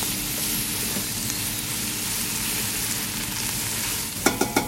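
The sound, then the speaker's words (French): Asparagus and carrots sauté in a pan, cooked until they caramelize, giving a loud, steady, hissing sizzle throughout, with a few sharp utensil clacks near the end. “Et des carottes. Carottes, carottes un petit peu, ouais. Là, on va tout faire revenir. Il faut vraiment que ça aille vraiment jusqu'à caramélisation.”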